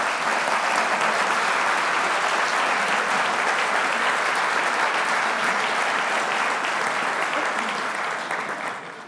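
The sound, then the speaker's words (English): A church audience gives a long, loud round of applause welcoming visiting Anglican clergy to a morning service, with dense, sustained clapping from many people that fades slightly in the final second. “Would you like to welcome them amongst us?”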